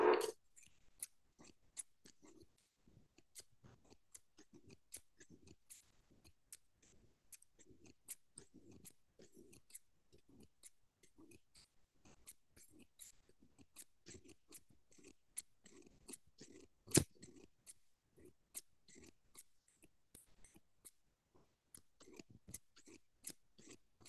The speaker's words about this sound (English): Let's check with our scissors again.